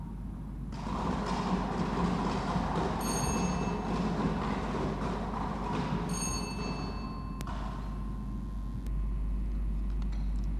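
A Thai lottery drawing machine spins its numbered drum for one digit position: a steady, fairly quiet rattling whir that continues without a break from start to finish.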